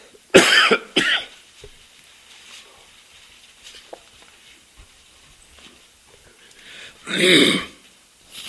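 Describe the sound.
Coughing and throat clearing from someone in need of a cough drop: a couple of harsh, rasping bursts close together at the start, then a longer, louder cough after a quiet stretch.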